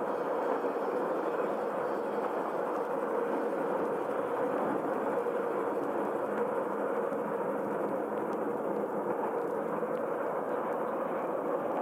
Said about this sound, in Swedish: Konstruktioner av stål. Ett tåg står inne. Vi går längs perrongerna in i dimman.